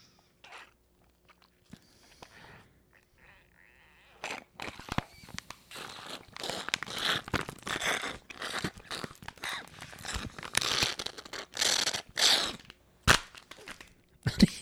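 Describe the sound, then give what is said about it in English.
A Capri Sun juice pouch is crushed against someone's head with loud crinkling crunches. A few seconds of near silence give way to many sharp, irregular crackles and crumpling bursts. “Did you just crush that Capri Sun against your head?”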